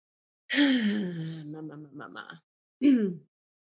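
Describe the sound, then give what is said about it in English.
Deep breaths drawn into the low belly during a guided relaxation, heard as a long, voiced, sighing exhale followed after a short pause by a second, briefer breath sound. “And we'll take some breaths into the low belly.”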